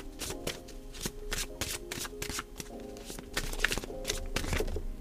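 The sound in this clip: Tarot cards being shuffled before a card is drawn: a steady run of many quick, soft riffling taps and papery flicks, fairly faint, with no voices.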